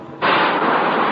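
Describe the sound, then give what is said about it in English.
Decompression aboard a U.S. Navy submarine preparing to dive during an underwater demolition team bottom lockout exercise: a loud rush of air that starts abruptly and holds as a steady, broad hiss. “That sound you just heard was the decompression.”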